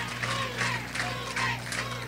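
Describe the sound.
Audience applause at a public political gathering, a dense, steady wash of clapping and crowd noise with rising swells, over a low constant hum.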